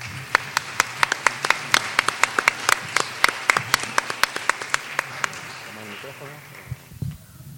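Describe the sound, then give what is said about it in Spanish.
Audience applause welcoming a speaker at a conference lecture, made of many sharp, evenly spaced claps that thin out after about five seconds, followed by a brief voice at the end. “Los recibimos con un fuerte aplauso.”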